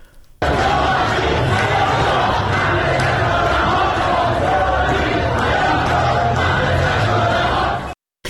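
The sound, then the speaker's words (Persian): A crowd of protesters chants and shouts against Rouhani's policies. The roar of many voices is loud and continuous for about seven seconds, then cuts off. “ظاهراً با پوزش اعتراض مردم علیه سیاست‌های آقای روحانی بوده که مستقیماً به خود آقای روحانی پرداختن.”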